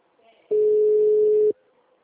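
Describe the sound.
Telephone call tone for a number that is not answering: a single steady, mid-pitched electronic tone lasting about a second, with brief quiet before and after.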